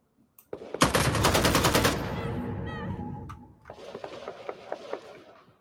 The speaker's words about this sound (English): Can I just shoot them for the hell of it?